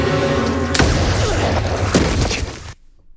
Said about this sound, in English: Clue got shot in the chest there. Right in the heart.